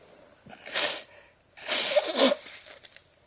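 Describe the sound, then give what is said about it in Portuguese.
A man in poor health sneezes: a short breathy burst followed by a longer, louder, noisy explosive one. “talvez tenha algumas interrupções para espirros, tosses, etc., porque devido ao meu estado periclitante de saúde”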